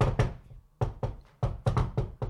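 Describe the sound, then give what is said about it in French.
Knocking on a door, a series of firm, hollow thuds in uneven pairs and clusters separated by short pauses, moderately loud and heard alone without talk. “ça cogne. Ça cogne à la porte.”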